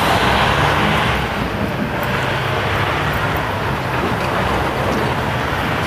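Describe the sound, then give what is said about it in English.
A noisy truck passes by, giving a loud, dense roar of engine and road noise that holds nearly steady for the whole stretch, with no voices. “goodness gracious, that's a noisy truck.”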